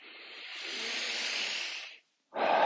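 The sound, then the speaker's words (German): A deep breath taken during a guided relaxation exercise: a long, breathy rush of air lasting about two seconds, a brief silence, then a second strong breath begins. No voices. “nimm einen tiefen Atemzug und streck dich nochmal in dich hinein”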